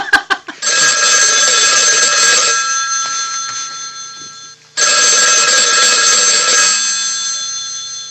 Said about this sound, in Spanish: Qué teléfono medio antiguo que tenemos.